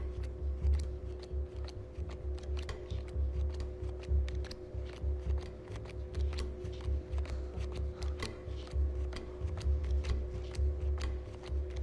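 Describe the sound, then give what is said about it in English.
Playing cards snapped one after another onto piles on a felt table by a dealer: many crisp, quick slaps in a fast, fairly even rhythm over a low, steady hum. “His fingers dance as he snaps cards onto the piles.”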